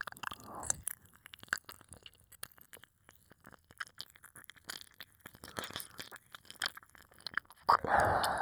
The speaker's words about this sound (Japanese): では、乳首の方もいじりながらお耳を舐めさせていただきますね。